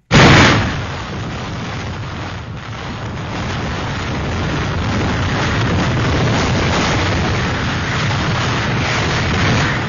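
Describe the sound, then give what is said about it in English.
Very strong wind at about 200 miles per hour, a loud, dense roar that bursts in suddenly and then holds steady without a break. “That is the sound of a 200-mile-an-hour wind.”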